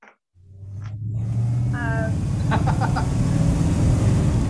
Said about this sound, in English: We have a driving noise. Ooh. Why would I not program a driving noise?